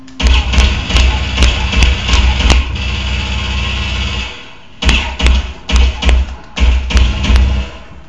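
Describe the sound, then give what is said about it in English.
Pistol shots in an online shooter video game: two bursts of many sharp, evenly spaced cracks separated by a short pause, loud over a low background hum, with no talk. “Now I'm going to shoot my pistol for the last minute.”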